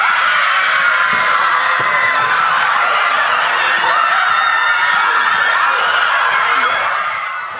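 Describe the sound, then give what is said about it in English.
Bates women's lacrosse team cheering and shouting as their first NCAA tournament bid since 1994 is announced. A loud, continuous mass of excited voices holds steady throughout, then eases slightly at the very end. “After the celebration of the Bobcats' first NCAA tournament bid in women's lacrosse since 1994 died down a bit”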